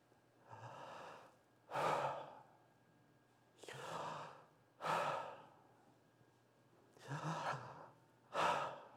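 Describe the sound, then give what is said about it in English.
A voice imitates the divine name YHWH as breath, with a faint vowel added: six breathy, airy pulses in three pairs. Each softer breath is followed by a stronger one, steady and unhurried, with no other sound. “it's the sound of a breath. I have to add a little vowel in there to make it audible.”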